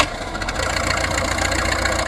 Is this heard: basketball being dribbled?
no